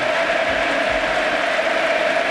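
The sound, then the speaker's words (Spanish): Over 50,000 spectators at a football stadium applaud a player as he is substituted off. A loud, steady wash of clapping and crowd roar runs unbroken throughout. “Pedri, los más de 50.000 espectadores que han venido hoy a la Montaña Mágica, rendidos al talento canario, que devuelve con aplausos el cariño de la gente.”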